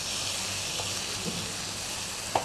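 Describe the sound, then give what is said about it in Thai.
Roasted chili paste and shrimp sizzle as they are stir-fried together in a pan, giving a steady, even hiss with a couple of light taps near the end. “แล้วก็ผัดให้น้ำพริกเผาเข้ากันกับกุ้ง”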